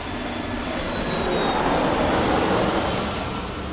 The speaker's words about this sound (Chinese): 各位女士、先生们，欢迎搭乘凌波微步航空航班五二零前往全球各地。